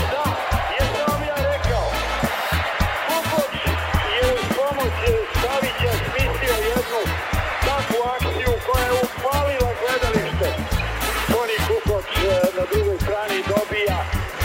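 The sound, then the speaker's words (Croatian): Spectators applauding at a basketball game after a decisive 87-72 win, a steady mass of clapping and crowd noise running throughout under a commentator's talk. “a i od gledalaca koji čujete kako aplaudiraju”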